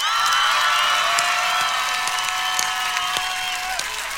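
Audience applause and cheering at a concert, a continuous dense wash of clapping mixed with sustained whoops and shouts, loud and steady throughout, with one long whistled or sung tone running beneath.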